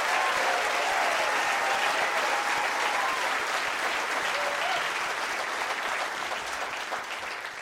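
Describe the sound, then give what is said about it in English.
Audience applause for a band during a music performance: loud, dense and sustained clapping from a large crowd, easing slightly in level toward the end. “Can we just give it up one more time for the amazing band that I'm playing with?”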